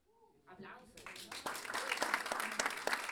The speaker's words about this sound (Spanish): Aplausos.